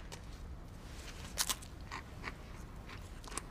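Someone bites into a dry saltine cracker. A few faint, brittle crunches rise over a low background hiss.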